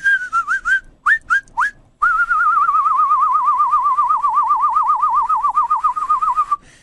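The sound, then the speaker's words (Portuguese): Whistling that imitates a canary's song: a few short, rising chirps, then a long, rapid warbling trill held for several seconds. The whistling is loud, steady and heard alone. “Você canta igual um canário, meu querido.”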